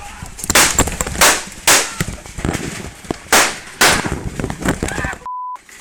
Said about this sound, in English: Amid a series of gunshots, people can be heard screaming before the footage cuts off.